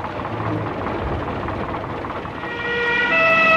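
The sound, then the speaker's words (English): An old war-surplus four-wheel-drive ambulance pulls up with its siren blaring. Loud, rough rumbling noise gives way toward the end to clear, steady siren tones. “An old ambulance pulls up outside a small hospital, siren blaring.”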